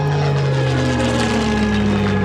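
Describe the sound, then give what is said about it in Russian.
A B-29 propeller aircraft, an American weather reconnaissance plane in the morning sky over a city, makes a loud, continuous, droning engine roar with steady humming tones that sink slightly in pitch. “Город живет обычной жизнью, когда около 7 утра в небе показывается самолет Б-29.”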